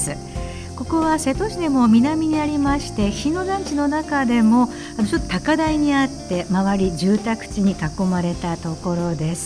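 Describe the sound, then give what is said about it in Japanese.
Cicadas chirping in a steady high drone at a nursery school on high ground surrounded by housing, running continuously beneath a person talking throughout. “今セミの鳴き声でしょうかね。”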